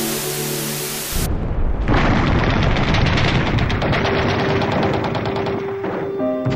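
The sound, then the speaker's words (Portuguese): Bombs exploding and missiles launching in war footage shown on television: after a brief tonal passage, a loud, continuous rumbling roar mixed with rapid crackling bursts. “O canal televisivo mostra bombas explodindo, mísseis sendo lançados e centenas de corpos pelo chão.”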